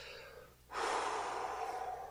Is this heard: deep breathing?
yes